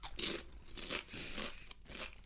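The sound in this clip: Chili con queso flavoured snacks crunch between the teeth: a few soft, dry, crisp bites and chews in quick succession, faint and with no talk.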